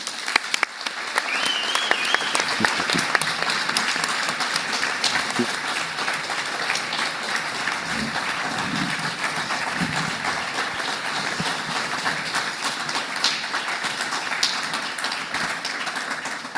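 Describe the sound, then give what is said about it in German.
An audience applauds a speaker as she is welcomed on stage. Dense, even clapping runs unbroken for about sixteen seconds. “Okay, der Länge des Applauses entnehme ich, dass du hier auch bekannt bist.”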